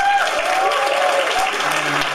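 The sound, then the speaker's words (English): Audience applause, steady and dense clapping through the whole clip, with a voice or two faintly audible over it. “By applause, who here knows me from the Kaiju Cast?”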